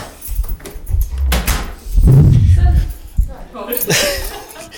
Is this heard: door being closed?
yes